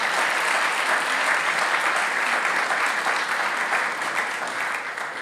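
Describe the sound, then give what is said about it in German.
Audience applause greets a guest speaker invited up to the front: steady, dense clapping that holds at an even level for about five seconds, then eases slightly at the very end, with no voices over it. “Gebt doch Peter bitte einen herzlichen Applaus.”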